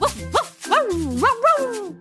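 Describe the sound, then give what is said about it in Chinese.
Playful yips and small barks from a little white puppy in a children's story, a few short high-pitched calls with bending, bouncy pitch. “林里，有一只叫做小白的小狗，它非常活泼又可爱。”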